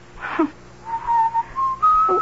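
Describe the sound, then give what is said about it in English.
A man whistles a slow song, clear sustained notes that step upward in pitch and hold, with short pauses between phrases. “Why do you keep whistling that song?”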